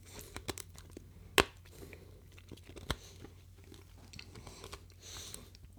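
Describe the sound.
Crisp crunching as something hard is bitten and chewed. A few sharp cracks stand out, two of them loud, among softer grinding chews at a moderate level.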